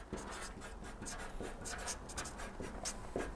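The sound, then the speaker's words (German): A word is being written down with faint, soft scratching strokes that come in short runs with small pauses between them. “Und ich schreibe es nochmal dahin, Fokus.”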